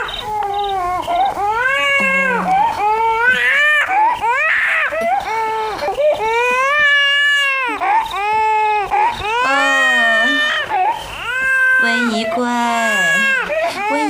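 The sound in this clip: An infant princess cries in an imperial palace scene, with loud, drawn-out wailing that rises and falls across many sobbing cries and short breaks, continuing without letup.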